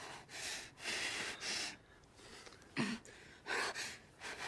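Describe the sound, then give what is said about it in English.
Breaths drawn in during a guided deep-breathing exercise, several airy, noisy bursts of air in an uneven rhythm, fairly faint with short pauses between them. “Inhale on the count of five.”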